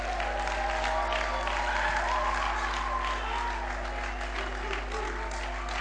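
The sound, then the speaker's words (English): A church audience applauding to welcome the pastor, a dense, steady wash of clapping that holds evenly from start to finish over a low constant hum. “why don't we put our hands together and welcome Pastor Doug as he brings the Word to us.”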